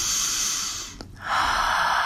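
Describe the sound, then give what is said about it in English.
A deep breath taken during a guided relaxation exercise: two long, airy rushes of breath at steady loudness, separated by a short pause, with no talking. “Taking another deep breath.”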